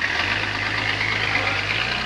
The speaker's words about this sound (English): He and Judy climb out, and the ambulance drives away.